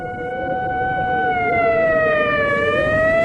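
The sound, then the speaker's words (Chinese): An ambulance siren sounds a loud, continuous wailing tone throughout, its pitch wavering and dipping briefly near the end, with the volume holding steady to slightly rising and no voices. “远处突然响起救护车的声音，由远及近，声音越来越大。”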